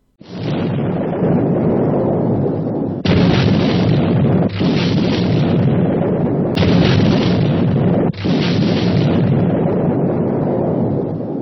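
A bomb explosion heard as a loud, deep, roaring rumble that fills the whole stretch, with several abrupt shifts in the sustained boom but no pause.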